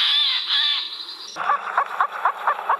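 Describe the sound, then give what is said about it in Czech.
A Eurasian jay call played from a recording: a shrill sustained tone gives way to a series of harsh, rasping screeches repeated in quick rhythm, loud and with no voices. “Pustíme si sojku? Takže už tam tady řeve”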